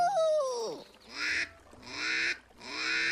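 A duckling quacking along to a song: a short vocal tone that falls in pitch, then a few loud, nasal, honking quacks in a steady rhythm.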